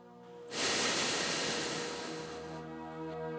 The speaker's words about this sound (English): Inhale. Exhale.